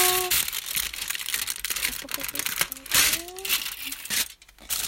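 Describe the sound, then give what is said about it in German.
Aluminium foil is torn and crumpled into a small piece, giving a continuous crackling, crinkling rustle with sharp bursts of tearing noise. “Und dann nehmt ihr euch Alufolie reißt euch ein ganz kleines Stück ab, also so, dass euer Slime da reinpasst, aber halt auch nicht zu groß.”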